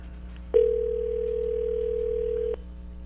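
A telephone call ringing unanswered: a single steady ring tone sounds for about two seconds and then cuts off abruptly, over a low background hum.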